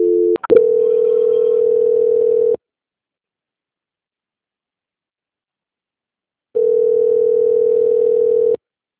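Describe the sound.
A steady telephone line tone plays while a call is transferred, starting after a brief click and running in two long, unbroken stretches of the same flat pitch separated by several seconds of silence.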